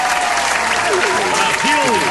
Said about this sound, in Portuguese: Salva de palmas, então, pra contar.